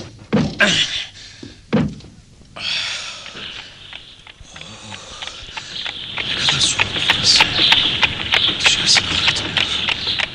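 Car door shutting as a passenger gets in, in a radio drama: two heavy thuds early on, then rustling and a sustained, noisy rumble that grows louder toward the end.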